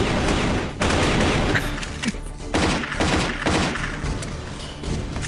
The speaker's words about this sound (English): Are those like just badly CGI'd bullets coming out of his rifle? Yes. Yes, that is what it is.